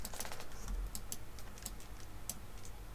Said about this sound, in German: Das ist eine Markiertaste. Mach mal, drück mal.